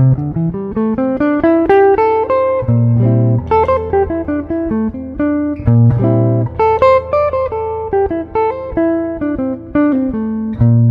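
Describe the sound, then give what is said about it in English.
An A minor pentatonic line played over a held chord: a sustained low chord rings steadily while single notes climb and fall above it in quick succession, the chord re-struck a few times beneath the melody. “So let's play an A minor pentatonic over top of that chord.”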